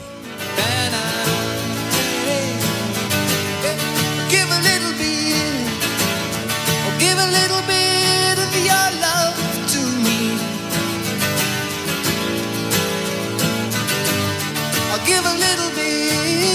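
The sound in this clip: A 1977 pop-rock song by a British band plays: a full, dense band arrangement with a steady rhythm, loud and unbroken throughout.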